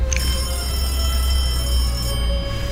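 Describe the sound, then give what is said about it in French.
Telephone ringing in a public phone booth, a steady high electronic tone that holds without a break over a loud, low rumbling background. “Cette cabine sonne”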